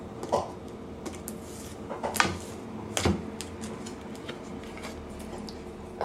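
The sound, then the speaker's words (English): Tarot cards being cut, a few soft dry clicks and taps scattered across a quiet background, with two slightly sharper snaps near the middle. “I'm going to go ahead and cut the deck.”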